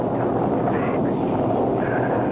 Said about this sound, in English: Just a storm.